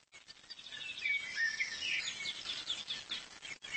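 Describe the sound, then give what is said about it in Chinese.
High, thin begging chirps from jay chicks in a forest nest, a busy overlapping stream of squeaky calls that runs almost without pause for a few seconds, fairly faint, with no talk. “先来看看松鸦幼鸟。松鸦在为它的孩子们寻找食物，家里有几只还在嗷嗷待哺的雏鸟，”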